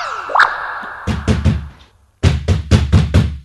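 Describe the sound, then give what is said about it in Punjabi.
Heavy knocking sounds on a bathroom door that was latched from the outside. The loud thuds come in two separate bursts with a short pause between them. “Daddy, bathroom ਦਾ ਦਰਵਾਜ਼ਾ ਕਿਉਂ ਖੜਕਾ ਰਹੇ ਨੇ?”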